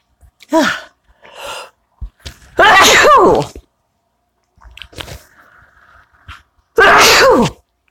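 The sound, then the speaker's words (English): A person has a sneezing fit, with a few loud, explosive sneezes separated by quieter breaths and small vocal sounds. The final sneeze is as forceful as the strongest one. “I had to pause to let that sneezing fit pass.”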